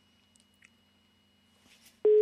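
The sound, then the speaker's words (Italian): An unanswered telephone call: after a quiet stretch with a few faint clicks, a loud, steady electronic ringing tone starts abruptly near the end and holds. “Tanto non risponde nessuno, non so perché, danno i numeri per chiamare... Per chiamare a raccolta i sostenitori di D'Alema e poi non rispondono.”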